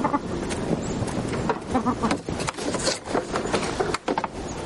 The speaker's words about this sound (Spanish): Camina hacia el corral de las gallinas.